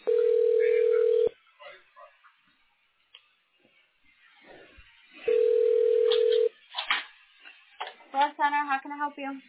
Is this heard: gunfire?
no